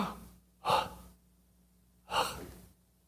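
Two sharp breaths demonstrating a breathing technique, each a sudden forceful burst of air that tails off quickly, separated by a quiet pause.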